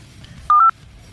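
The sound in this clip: A telephone tone sounds as a caller's line comes in: one short, steady, mid-pitched electronic beep, loud and clean, standing alone above a faint low hum.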